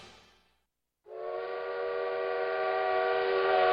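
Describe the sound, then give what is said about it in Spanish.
Train horn used as a radio sound effect for a night train crossing central Chile: a brief fading rush and near-silence, then a sustained harmonic chord that starts abruptly and swells slightly louder to the end. “Estas son las horas en que el tren nocturno RTL recorre toda la zona central de Chile, todos a bordo con la mejor música.”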